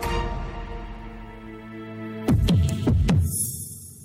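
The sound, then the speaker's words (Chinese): Fast heartbeat sound effect: a steady humming tone runs alone, then gives way to a quick run of a few deep, loud thumps in the second half. “心跳好快，怎么办？”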